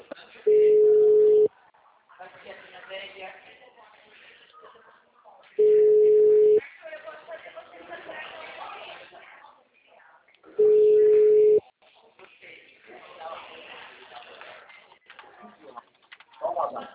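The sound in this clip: Telephone busy tone after a dropped call: three steady beeps of about a second each at even intervals, with a voice talking between them.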